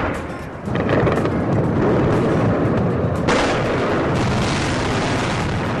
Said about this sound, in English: These are shots being fired now in Baghdad.